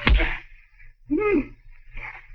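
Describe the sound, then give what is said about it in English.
A single hard punch lands with a sharp, loud smack as a man is knocked out. Short voices follow in the quiet after the blow. “Oh, you knocked him out. Huh? With one punch.”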